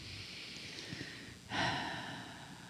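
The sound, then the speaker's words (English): A deep breath drawn during a guided breathing exercise: a soft, airy rush that swells suddenly about halfway through and then trails off gently, heard alone with no talk. “Take another breath and let that in.”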